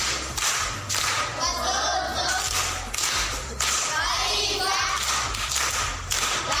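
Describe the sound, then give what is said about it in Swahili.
Primary school pupils applaud in class with loud, sharp group clapping. The clapping comes in repeated rhythmic surges and stays dense and steady for about seven seconds. “Makofi kwa shangazi.”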